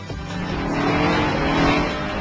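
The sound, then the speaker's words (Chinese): A car engine accelerating hard during a street race, a loud, dense roar that swells steadily over about two seconds with no voices over it. “我唔可以俾你过嘅，我要加速！”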